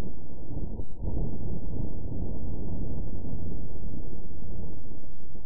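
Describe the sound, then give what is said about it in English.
Wind on Mars, picked up by the seismometer of NASA's InSight lander rather than a microphone, comes through as a steady, dense low rumble with no higher tones, holding at an even level for several seconds with no voices. “That is the first wind recording of wind sent back from another world”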